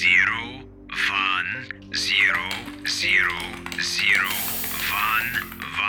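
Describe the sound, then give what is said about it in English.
Someone types binary code on a computer keyboard, a rapid run of key clicks mixed with chirpy, warbling electronic tones. “And this thing wants that in binary? Correct. So you type”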